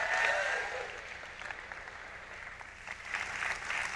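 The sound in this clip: A church audience applauds to welcome a speaker at a morning service, steady clapping that dips slightly in the middle and swells again toward the end.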